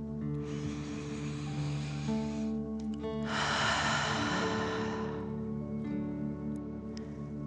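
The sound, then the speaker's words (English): A deep breath in and then out, taken as a fire-breathing exercise: two long, airy rushes, the second one louder, over soft sustained music. “pretending you are breathing fire. Ready? Okay. Deep breath. In and out.”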